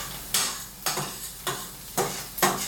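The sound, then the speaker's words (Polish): Onion gets stirred in a frying pan, five distinct scraping strokes at a fairly steady rhythm over a soft, continuous sizzle, no talking. “Teraz przemieszam sobie cebulę”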